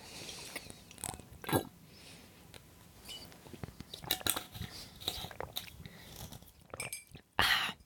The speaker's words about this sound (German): Also ich trinke noch mal kurz die Flasche hier aus.